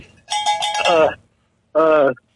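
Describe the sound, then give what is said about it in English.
A cowbell sound effect rings out in two short bursts of bright, hollow metallic clanking with a silent gap between them. “Oh, give yourself a bell, cowbell for that one.”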